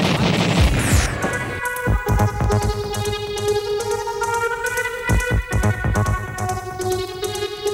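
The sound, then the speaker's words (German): A proton laser firing as a sci-fi effect: many crackling electronic zaps and bursts over sustained buzzing tones, with a sweeping tone near the start. The whole sequence is loud and busy. “Volle Energie auf den CD-Protonenlaser. Feuer frei.”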